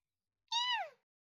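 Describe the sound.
A hungry kitten gives a single clear meow that falls in pitch at the end, heard alone against silence.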